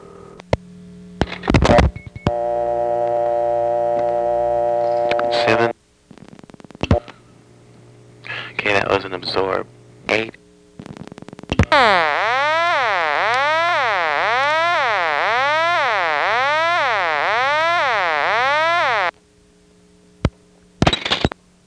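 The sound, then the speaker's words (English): Telephone digits dialed through a digit-absorbing selector exchange: bursts of dial pulses and selector clicks, a steady tone, then a long loud warbling tone, with a voice talking between the switching sounds. “Well, here's a 7. Notice the 7's absorbed, and then I'll dial the 8.”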